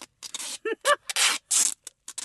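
Duct tape being pulled from the roll and pressed onto a bare arm, heard as several loud ripping and tearing bursts in an uneven rhythm, some with a brief squealing tone.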